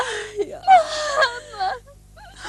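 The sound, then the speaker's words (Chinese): A child crying and whimpering, with wavering wails that bend up and down in pitch and breathy catches between them, fairly loud, then trailing off into brief quieter sobs. “别哭了。孩子，委屈你了。”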